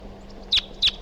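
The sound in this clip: Bird calls during a numbered bird recording session: two short, high, sharp chirps about a third of a second apart, each clearly above a faint, steady low hum.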